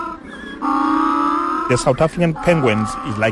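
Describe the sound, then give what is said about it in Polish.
African penguins near Cape Town give a donkey-like bray: one loud, drawn-out, tonal call lasting about a second, followed by people talking. “Afrykańskie pingwiny brzmią jak osły, mówi mi Matias”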